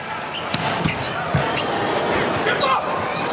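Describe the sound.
A volleyball thumps as a player prepares to serve in a USA volleyball match. A few dull ball impacts sound under steady crowd noise while a commentator talks throughout.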